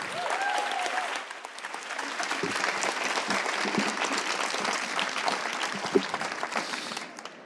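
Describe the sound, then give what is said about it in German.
Poetry slam audience applauding as a poet from Berlin walks to the microphone: dense, continuous clapping with a brief cheer at the start, dropping off at the very end. “Bitte applaudiert richtig laut, bis er den weiten Weg bis zum Mikrofon gemacht hat.”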